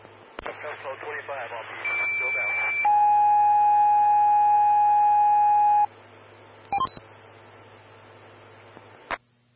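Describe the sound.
Fire dispatch alert tones over radio for a breathing-problems call: after a brief stretch of talk, a short high steady tone leads into a longer, lower sustained tone. A couple of short radio bursts follow.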